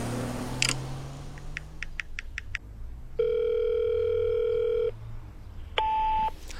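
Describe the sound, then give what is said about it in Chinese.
A telephone places an outgoing call: a quick run of short keypad dialing beeps, then a long steady ringback tone, a pause, and the tone starting again. “把冯月华送上出租车，温小辉给洛毅打了个电话。”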